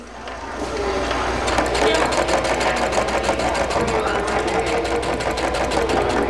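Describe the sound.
A sewing machine whirs at a ribbon skirt sewing workshop in the Barona Recreation Center. It starts up after a brief quiet moment, then runs steadily with a rapid, rhythmic stitching chatter at a fairly even loudness.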